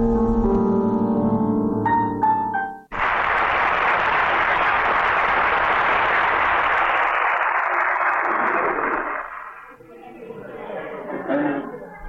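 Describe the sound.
A theatre audience applauds in a 1956 Egyptian radio drama. A closing musical phrase gives way to loud, sustained clapping that gradually fades as voices start talking.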